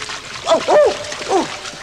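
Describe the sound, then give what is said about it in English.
A splash into icy cold water, a pool or lake: a few wet, sloshing bursts with bubbly, gurgling tones, fairly loud. “Water! Oh, and icy cold! This must be a pool or a lake. Or is it an underground river?”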